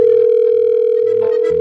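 A steady telephone tone sounds loud and unbroken while a call is placed to a construction worker.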